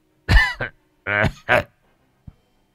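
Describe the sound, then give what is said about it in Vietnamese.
An old man laughing and coughing together in a few rough, throaty bursts, some voiced and some harsh. A brief, faint cough follows after a pause. “Tiếng cười của ông lẫn trong tiếng ho vang lên.”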